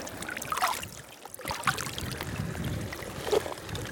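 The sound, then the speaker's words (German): Rain starting to pour down outdoors in Iceland, a dense, steady hiss of drops with scattered louder patters and splashes throughout. “jetzt fängt es richtig an zu regnen, so eine Scheiße”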